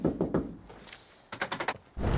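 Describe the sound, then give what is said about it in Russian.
Knocking from inside a van against its windshield: a quick run of several sharp raps in close succession, moderately loud, preceded and followed by other low, muffled sounds. “Женщина стучит в лобовое стекло изнутри.”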